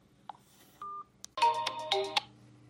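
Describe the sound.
A telephone dialing a call gives a short electronic beep, then a held tone, followed by a quick run of bright, layered chiming tones that pulse a few times before stopping.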